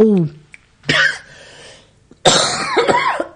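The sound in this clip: A harsh cough bursts out during casual conversation, short and forceful, with people talking before and after it.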